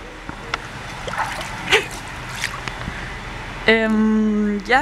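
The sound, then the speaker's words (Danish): Water sounds in an indoor swimming pool: faint splashes and gurgles over a steady hiss, with a couple of sharper splashes, then a voice enters near the end. “Det eneste, man kan høre ud over det, det er lyden af vand.”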